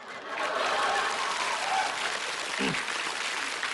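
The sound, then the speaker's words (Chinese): Audience applause at a live stage sketch about a crowded morning subway: steady, dense clapping that holds at an even loudness from start to finish. “别鼓掌，别鼓掌。”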